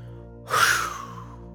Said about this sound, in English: Begin by taking a deep breath in like this. Then rapidly and forcefully blow your breath out.